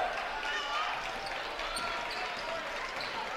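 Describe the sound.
A basketball dribbled on a court during a women's game, bounces thudding under steady crowd noise throughout.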